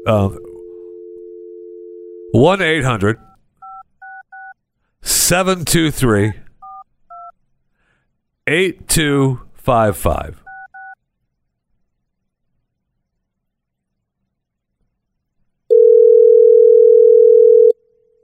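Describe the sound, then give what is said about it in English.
Touch-tone telephone dialing to a hotline, with a steady two-tone dial tone at the start, short bursts of keypad beeps between stretches of people talking, and a single loud steady tone at the end. “And so let's dial the teen hotline, shall we? All right. We're dialing,”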